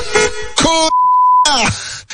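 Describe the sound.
A censor beep: a single steady, high tone about half a second long, cutting in between loud bursts of voice.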